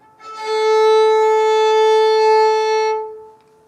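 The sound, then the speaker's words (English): A violin string bowed in a single long stroke, giving one sustained, steady, bright tone that swells in quickly, holds for nearly three seconds, and fades, with nothing else heard. “as I pulled the bow across the string, the sound that came out was a lot longer than the sound that I plucked with my finger. Here it is again.”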